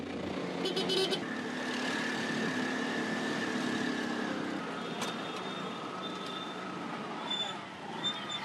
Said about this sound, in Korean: 조급한 제 마음을 아시는지 엄청난 속도로 질주하는 툭툭 기사님.